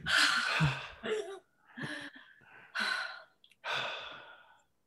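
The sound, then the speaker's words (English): Deep breaths drawn in and let out through the mouth: a series of airy, breathy gasps and exhales of moderate loudness, separated by short pauses, with no talking. “So take a nice breath. Take a nice breath through your mouth, through this one.”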